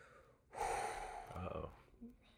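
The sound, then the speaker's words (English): A person takes a deep breath: one long, loud, breathy rush of air lasting just over a second. A short, faint vocal sound follows it. “Taking deep breaths.”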